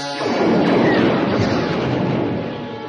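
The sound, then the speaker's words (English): Laser blaster fire in a space battle as troops shoot at a spaceship while others board it, heard as a loud, dense roaring burst that swells quickly, holds for about two seconds and then eases off. “Han Solo and Chewie exchange blasting laser fire with the troops as the others board the Falcon”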